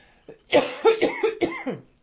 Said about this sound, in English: Excuse me for 1 minute, I need to cough.